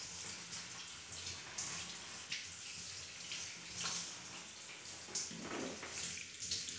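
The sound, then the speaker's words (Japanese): Hot water splashing in a bath, a steady rushing wash of water with a few brief louder splashes and no voices. “少しお湯が跳ねましたね。”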